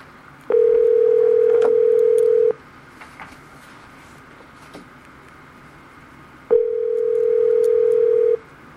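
Telephone call tone while phoning someone from a meeting: two long, steady, even-pitched tones of about two seconds each, separated by a few seconds of faint background noise.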